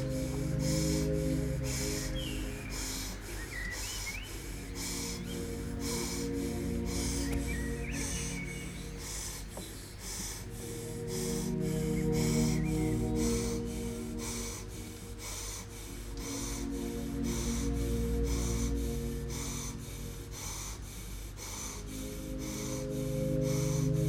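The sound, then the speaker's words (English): Breath is driven quickly in and out through the nose in a steady, fast rhythm of short puffs that continues throughout over a sustained low background tone. “Driving the air in and out through the stomach in 3, 2, and 1. Begin with me for 90 seconds. Inhale nose, exhale nose.”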